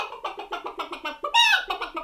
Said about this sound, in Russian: на крылечке хозяйского дома уселась курица, снесла яички и кудахчет.